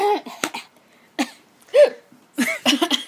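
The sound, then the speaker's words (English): A choking cough: a few rough, spluttering coughs and throaty gasps in uneven bursts separated by short quiet gaps. “Sorry. We're making all kinds of noises tonight. Choking a little bit.”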